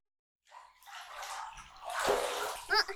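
Water splashes and sloshes in a bathtub as someone gets out of the bath. A moment of silence comes first, then the washing noise swells into a louder surge and ends with a brief, sharp splash.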